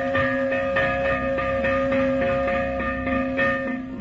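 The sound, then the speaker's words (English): A fire alarm bell of New York's early volunteer fire companies ringing in rapid, steady repeated strikes, each clang leaving a sustained metallic ring, loud and continuous with no talk. “And when the fire bell sounded,”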